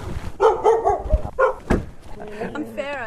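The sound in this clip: A female dog barks and yips at a house by the woods in a small residential area as she comes out to meet a visitor. A few short, sharp barks are mixed with other sounds.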